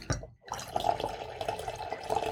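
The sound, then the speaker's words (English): Wine poured into a glass at a dinner with ziti pasta, a faint, continuous liquid trickle and gurgle that runs steadily after a brief pause at the start. “And I guess I'll have to pour a little more of this wine.”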